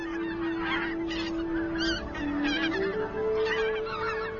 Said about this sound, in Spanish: El ánsar campestre, el ánsar careto, el ánsar común y la barnatla canadiense se detienen aquí para recuperar fuerzas para su viaje.